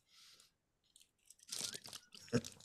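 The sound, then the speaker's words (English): Someone bites into an iconic Australian snack. A soft faint rustle comes first, then a sharp crunch and several moments of crunchy chewing, all quiet. “So let's take a bite and hope to gosh that I'm still alive in the morning.”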